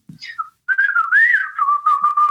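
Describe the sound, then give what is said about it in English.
A person whistles an imitation of a bobolink's song: a few short high notes, then a long, continuous warbling whistle whose pitch wavers and bubbles up and down, clear and fairly loud, with no talk. “That's the sound of the bobolink.”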